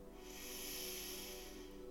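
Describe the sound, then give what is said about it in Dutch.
A slow, deep breath is drawn in during a guided meditation, a steady airy hiss lasting about two seconds over a soft, sustained humming background. “We ademen nog één keer diep samen in”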